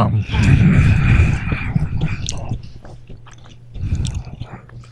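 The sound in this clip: Crunching and chewing of a dehydrated bug dominate at first, giving way to smaller munching noises, grunts and voices as the eater keeps working through it.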